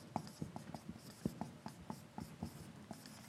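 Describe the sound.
Handwriting as a heading is written out, a faint scratching of quick pen strokes in an irregular rhythm, with short sharp ticks between softer scrapes.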